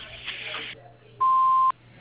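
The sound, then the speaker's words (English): Voicemail answering machine beep on a tree service's business line: a single steady electronic tone, loud and lasting about half a second, sounding alone right after a short stretch of talk. “Please leave your name and number at the end of the beep, and I'll get back to you as soon as possible.”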